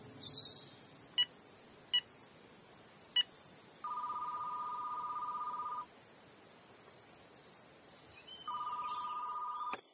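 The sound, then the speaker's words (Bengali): A telephone number is dialed with three short, separate beeps, followed by two long, steady ringing tones with a quiet pause between them. “চিঠির একপাশে থাকা phone নাম্বারে dial করল অর্জুন।”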